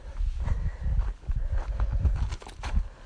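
Footsteps of a person walking, a series of soft, muffled footfalls in a fairly steady rhythm that continue through the whole stretch, with no talking over them.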